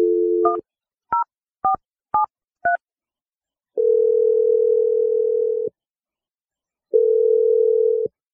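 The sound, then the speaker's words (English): Telephone number being dialed: a short steady tone, then five quick touch-tone beeps, followed by two long, even buzzing tones separated by silence. “I'm going to dial the number right now. Here we go.”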